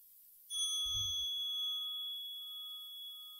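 A mobile phone's news message alert gives a bright electronic chime: one struck tone with pure, ringing overtones that sustain and slowly fade over about three seconds, with a brief soft low thump just after it begins.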